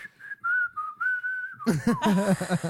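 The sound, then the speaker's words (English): A person whistles in imitation of an over-aggressive, redneck-style whistle: a sustained high note held in a few short stretches, followed by a sudden louder, harsher burst of rough, wavering sound. “like just over aggressive whistle just to like be an asshole”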